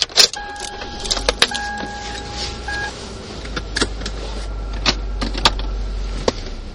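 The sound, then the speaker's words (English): Car interior while driving: a steady low engine and road rumble runs throughout, with a pair of sustained electronic beeping tones early on and scattered sharp clicks and knocks. “I am driving home.”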